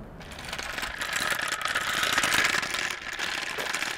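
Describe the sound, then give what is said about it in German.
A tortoise figure with wheels under its feet rattles as it is pulled on a leash during a walk in a former border area. Its continuous clattering, ratchet-like rolling stays fairly faint throughout. “Und die hat auch eine Leine. Die hat Rollen unter den Füßen.”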